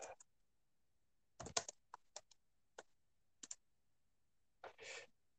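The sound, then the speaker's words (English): Keystrokes on a computer keyboard come in a few short clusters of crisp clicks with quiet gaps between, ending in a denser burst of typing. “So I gotta type this in.”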